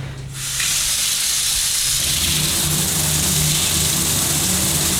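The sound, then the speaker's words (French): Hot water running in a shower comes on after a brief quiet moment, then settles into a steady, loud, hissing spray that continues evenly to the end. “L'eau est chaude. Ah. L'eau est chaude. Ah, tous les matins. Tous les matins, tu prends une bonne douche.”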